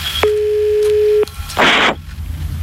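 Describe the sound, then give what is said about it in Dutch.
Telephone line tone while dialing a call to one's own number: a steady low tone holds for about a second, then a short loud burst of hiss follows, with no voices. “Ik bel nu het nummer van onszelf.”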